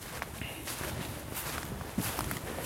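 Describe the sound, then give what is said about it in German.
Footsteps crunch steadily as someone walks cross-country off the path into a forest, with many even, soft steps over rough ground at a continuous walking pace. “Aber wir gehen noch ein bisschen hier mal richtig, wir gehen jetzt mal hier querfeld einmal rein in den Wald.”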